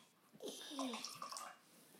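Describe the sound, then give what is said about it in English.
A drink is poured, a faint gurgling stream of liquid that runs for about a second and a half before tapering off. “Let me pour mine first.”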